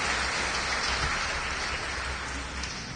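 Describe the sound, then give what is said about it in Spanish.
A church audience clapping loudly during a service, a dense, unbroken wash of hand claps with no separate beats, holding steady and loud throughout. “cuando dicen aleluya, fuertes palmas y suizas van a amén.”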